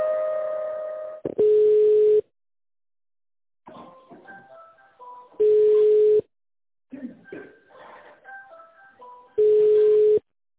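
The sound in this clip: Telephone line sounds while an office call is transferred: a thin synthetic hold melody of stepping electronic notes alternates with three steady, buzzy tone bursts, each under a second long, separated by short silences.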